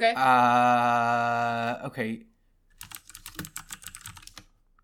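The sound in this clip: Fingers type on a computer keyboard to look something up, a fast irregular run of many quiet clicks that follows a sustained voiced sound at the start.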